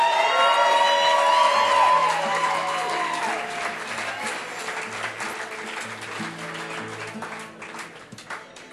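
An audience applauds to welcome a guitarist at a live concert. The steady wash of clapping slowly thins and fades, with a few low sustained tones sounding beneath it.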